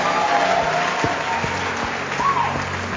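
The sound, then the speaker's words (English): An audience applauds with steady, dense clapping that holds at an even loudness for the whole clip. “No, you guys clap as if you sat on your hand.”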